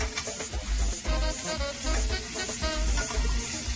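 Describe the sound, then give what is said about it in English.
Food fries in a skillet as it is flipped: a loud, continuous sizzle with a few low thumps recurring at a fairly regular pace. “take that skillet. So we're just going to give it a quick flip. So we're going to finish cooking while we're building our sauce.”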